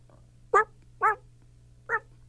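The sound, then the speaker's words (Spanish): A small dog barks three times in short, high, yappy bursts with uneven gaps between them, over a faint steady low hum. “está aquí un perrito y vino a pedirme una canción”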